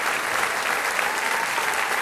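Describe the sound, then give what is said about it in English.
An audience at a school gathering with primary-school visitors claps continuously. The dense, even applause holds at a steady level throughout, with no pauses and no clear voices. “Weren't they good? That applause is for you.”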